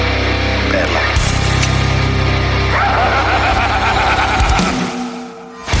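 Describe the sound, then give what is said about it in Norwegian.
A radio show jingle plays, with a loud rumbling, engine-like drone under layered tonal sounds that holds for several seconds, drops away near the end and then returns abruptly. “Da gjør vi det. Da kjører vi jingle.”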